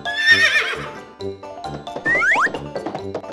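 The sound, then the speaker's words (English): A horse neighs: a shrill, quivering whinny at the start, followed by a few shorter tonal and clattering sounds. “Horse.”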